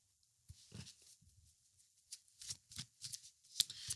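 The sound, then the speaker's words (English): Soft riffling and flicking of a deck of reading cards being handled and shuffled, with many light, quick papery clicks and taps that grow busier toward the end, faint and without speech. “Just getting extra cards for you. Just wanted to get the cards before I actually launch into what I want to say.”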